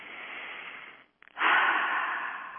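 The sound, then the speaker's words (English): Slow, deep breaths taken as a calming exercise: one long airy breath fades, a brief gap with a couple of small clicks follows, then a louder, fuller breath begins and carries on steadily. “let's just do a few breaths instead of wring the hands.”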